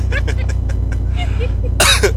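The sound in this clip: A single harsh cough bursts out at the end, after a stretch of quiet talk.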